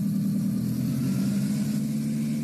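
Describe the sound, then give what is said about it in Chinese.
Engine and propellers of a drone running during its pre-flight self-check of engine and propeller operation: a steady, loud, low droning hum with a buzzing tone that holds even and unchanged throughout, with no voices. “为了检测发动机运转是不是正常，然后螺旋桨运转是不是正常”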